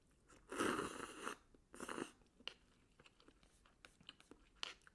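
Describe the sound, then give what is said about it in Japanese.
Eating instant cup noodles: two loud bursts of chewing and slurping, then a string of faint, scattered crunchy clicks and mouth noises. “食べていいですか食べながら喋るって意外に難しいですね。”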